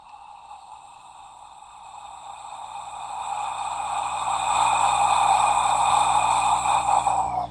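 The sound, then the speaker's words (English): A whispered "ah" breathing exercise with an open throat and relaxed jaw: one long, slow, breathy exhalation that grows gradually louder before cutting off abruptly. “It's a slow exhalation with an open sound. You allow the jaw to release away from the skull.”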